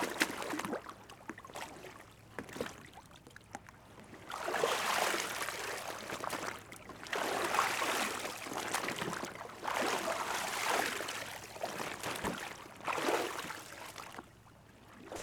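Water splashing and sloshing as a kayak is handled at the water's edge, coming in several loud, broad bursts separated by quieter stretches of trickling water.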